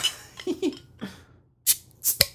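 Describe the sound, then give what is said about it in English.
Beers being cracked open at an Oktoberfest celebration: a few sharp, hissing pops near the end, after some softer scattered knocks and quiet stretches. “But what say you that we crack these? You know what? I say yes.”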